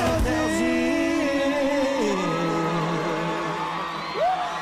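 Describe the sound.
Football fans cheer and shout as a crowd, with a long, drawn-out yell over a continuous roar.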